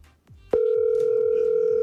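Telephone dial tone heard while a call is being redialed: after a brief bit of low noise, a loud, steady, unbroken hum switches on about a quarter of the way in and holds flat at one pitch to the end.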